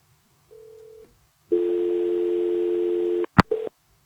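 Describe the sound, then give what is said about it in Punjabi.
Telephone tones after a call disconnects: a short steady beep, a pause, then a longer unbroken tone, followed by a sharp click and one more brief beep. “ਤੁਹਾਡੀ ਕਾਲ disconnect ਹੋ ਗਈ ਜੀ।”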